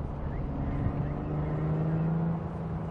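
Car driving in a video game: a low, steady engine drone and whir that holds an even level throughout, fairly quiet.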